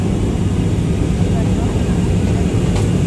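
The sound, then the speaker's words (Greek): Airplane cabin drone as the aircraft prepares to land, a loud, steady low roar holding evenly throughout. “Κυρίες και κύριοι, είμαστε έτοιμοι για προσγείωση.”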